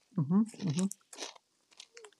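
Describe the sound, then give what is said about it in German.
Smoky barbecue kettle chips crunch in a few short, crisp bites after a brief voice, each crackly burst separated by near silence. “Ja, bei mir gibt es Kesselchips, Smoky Barbecue Geschmack.”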